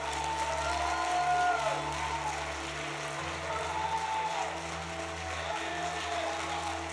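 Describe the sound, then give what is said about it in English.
A church audience clapping for Jesus, a faint, continuous patter of hands over a sustained low droning tone. “Give Jesus the greatest hand clap you've ever given anybody.”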